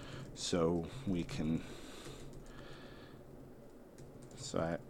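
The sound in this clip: Someone typing a message on a keyboard: a quiet, irregular patter of key clicks, interleaved with a person speaking.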